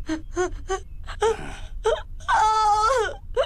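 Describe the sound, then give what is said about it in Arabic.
An eight-year-old boy cries after a vaccination, starting with several short, gasping sobs and building into longer, loud, quavering wails. “ها قد انتهى الأمر، لماذا تبكي؟”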